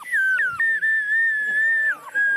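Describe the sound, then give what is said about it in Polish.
Traditional clay pottery whistle shaped as a hen, modelled on old traditional carvings: a loud, clear, high whistle tone, warbling with quick dips at the start, then held steady before a short drop and renewed tone. “pod jedną ręką baba trzyma kurę, a ta kura jest gwizdkiem.”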